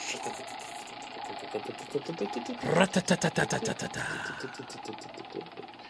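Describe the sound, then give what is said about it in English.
A prize wheel spins, its pointer producing a quick, regular run of loud ticks that starts partway through and slows near the end, with people talking over it. “let's spin the wheel. Let's go to another topic. Spin the wheel.”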